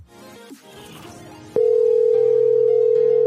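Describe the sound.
Ringback tone of an outgoing call to an old cellular number: after a quieter, mixed opening, a loud, steady single-pitched tone starts about halfway and holds unbroken to the end.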